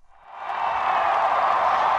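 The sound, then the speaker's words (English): More than 100,000 people in a Chicago park along Lake Michigan cheer for Barack Obama, their crowd roar swelling from quiet into a loud, sustained roar that holds steady. “In the end, more than 100,000 people gathered in a Chicago park along Lake Michigan to cheer on Barack Obama.”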